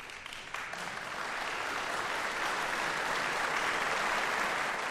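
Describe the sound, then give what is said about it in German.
An audience applauds after a solo piano recital in a Bremen concert hall. The dense clapping swells slightly at first, then holds a steady, even level throughout. “Ich möchte aber den Applaus nicht unterschlagen, denn Lise de la Salle hat ihn wirklich verdient. Hier kommt also jetzt noch der Beifall des Bremer Publikums.”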